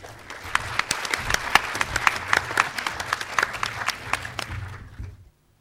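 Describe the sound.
Audience applause welcoming a presenter to a talk on fairy tales, with many individual sharp claps standing out from a moderate crowd. The clapping stays even and brisk, then stops abruptly into silence.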